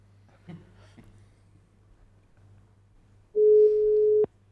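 A telephone tone sounds while a call is redialed: after faint rustles over a low hum, one loud steady mid-pitched tone holds for about a second and cuts off abruptly with a click.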